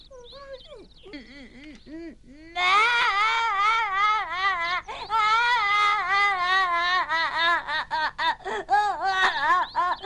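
A child crying: soft whimpers at first, then loud, sustained wailing with wavering pitch that breaks into choppy, sobbing bursts toward the end.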